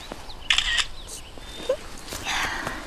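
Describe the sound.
A camera shutter snaps while photographing a white-trunked tree found on a hillside hike, giving a few short, bright mechanical clicks over faint outdoor background noise.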